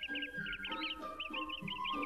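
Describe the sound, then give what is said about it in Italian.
Small birds perched on a branch chirp in rapid, high-pitched calls that overlap almost continuously, with a lower, rougher layer of sound running beneath them. “I due amici incontrarono alcuni uccellini appollaiati su di un ramo.”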